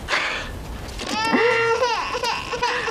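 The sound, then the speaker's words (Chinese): A child crying in a wavering, high, wailing voice whose pitch bends up and down, steady and fairly loud over a faint background. “你看着孩子又哭了。”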